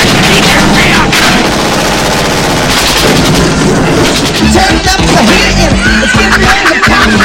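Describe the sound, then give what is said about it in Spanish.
Automatic weapon gunfire in a 1988 action film scene, loud and dense throughout, with rapid bursts of shots and heavy impacts running together without a break. “¡Que atacan con armas automáticas en Nakatomi! ¡Necesito cobertura inmediatamente!”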